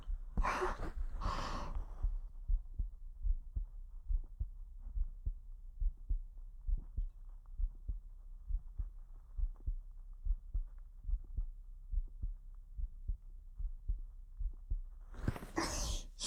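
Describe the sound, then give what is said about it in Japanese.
Steady heartbeat thumps, low and muffled, repeating many times in an even rhythm, with breathy sounds at the beginning and end. “ドキドキする音聞きたくない？”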